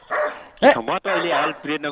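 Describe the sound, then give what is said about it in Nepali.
A person imitates a barking dog, producing about six voiced barks and drawn-out yelping cries in quick, uneven succession, loud and close to one another. “कुकुर त छैन होला, कुकुर कराइरहेको छ”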